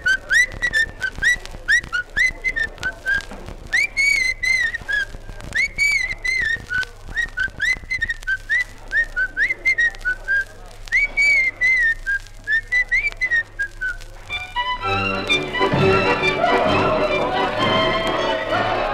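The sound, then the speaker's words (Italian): A man's distinctive signature whistle, a tuneful run of many short, bright whistled phrases with a lilting rhythm, followed near the end by a dense wash of broad noise. “Si annunziava con una fischiatina particolare, la sua sigla.”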